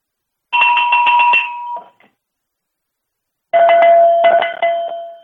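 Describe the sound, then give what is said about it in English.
A long distance cowbell is rung first in a rapid clanking burst that dies away. After a short silence a Kentucky cowbell follows, lower in pitch and rung in a similar quick, loud burst. “So I'm going to ring a long distance cowbell first, and then I will ring the Kentucky cowbell, and you can hear the difference.”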